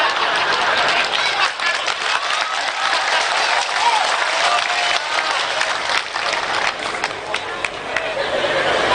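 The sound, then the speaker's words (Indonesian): An audience applauds, a dense and steady wash of clapping that lasts throughout without a break. “DPR melok tepuk tangan.”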